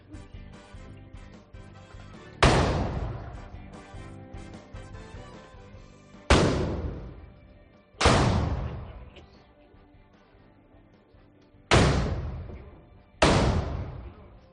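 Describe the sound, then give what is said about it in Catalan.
Five heavy blunderbuss shots are fired by trabucaires to open a World Tourism Day celebration at a castle. Each loud boom is unevenly spaced and trails off quickly over a low background hum. “Doncs els trabucaires que donen inici a aquesta celebració de la 18a edició del Dia Mundial del Turisme al Castell de Viard a Masarac.”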